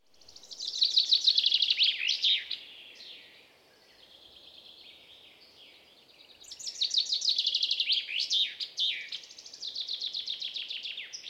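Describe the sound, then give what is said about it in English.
Birds chirping in a pine forest: high, rapid twittering and trilled calls come in sustained bouts with a brief lull between them, fairly quiet and with no talking. “As I walk in the forest, listen to the birds chirping and breathe in the smell of pine, I think of Hazel.”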